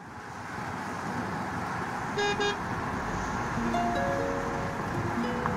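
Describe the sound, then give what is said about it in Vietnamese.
Busy street traffic seen from a balcony: a constant dense roar of passing vehicles with a couple of short car-horn toots in the middle and more scattered horn tones toward the end. “tôi ngồi ở ban công nhìn xuống dòng xe đông đúc”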